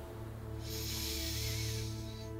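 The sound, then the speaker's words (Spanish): Slow deep breathing during a relaxation exercise, heard as a single long, soft, airy breath lasting over a second above a faint, steady low hum. “tomémonos unos minutos para inhalar profundo por la nariz y para exhalar por la boca.”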